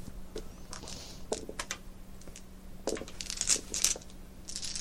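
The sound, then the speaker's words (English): Eight dice being rolled during a tabletop game: faint, scattered clicks and taps in irregular little clusters, with quiet gaps between the bursts. “I'm only rolling eight dice compared to 12.”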